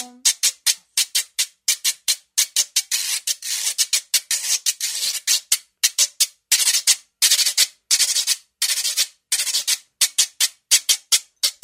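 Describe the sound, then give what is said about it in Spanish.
A güiro is scraped in a steady cumbia rhythm: many quick rasping strokes in a repeating pattern of short and longer scrapes, bright and loud, played alone with no voices. “Y todo así el güiro, que también se mantiene bastante estable en la cumbia.”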